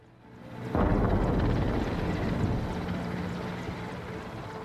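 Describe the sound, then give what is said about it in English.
A helicopter flies over a war-torn Syrian city, its rotor and engine roar swelling in abruptly to a dense, steady wash that eases off slightly toward the end, with no talk. “A helicopter in the blue sky.”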